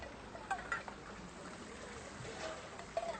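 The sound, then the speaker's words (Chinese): A cup of water poured into a pot for braising makes a faint, continuous trickling splash that runs for about three seconds, with a few small gurgles along the way. “那我会放一点水下去给它焖啊。One cup of water 啦，”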